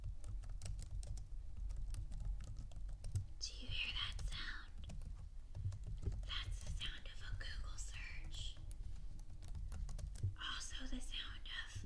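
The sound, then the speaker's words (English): Soft, quick tapping of keys on a computer keyboard, a steady patter of light clicks throughout, with bursts of hushed whispering between stretches of typing. “Gently, quietly typing.”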